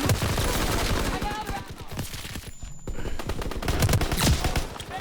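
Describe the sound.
Rapid gunfire from a video game team deathmatch, with a sniper present: dense bursts of many sharp shots that fill nearly the whole stretch and dip into a brief lull midway before resuming at full loudness.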